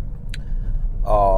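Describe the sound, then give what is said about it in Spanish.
Car engine vibrations rumble inside a car, a steady low droning hum that holds level throughout, with a voice beginning over it near the end. “oigáis esas vibraciones y que oigáis todas estas molestias que provoca el motor del coche.”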